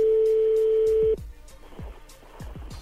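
Telephone redialing a call after being hung up: a steady dial tone hums for about a second, then cuts off into a string of many short, low, rhythmic dialing clicks.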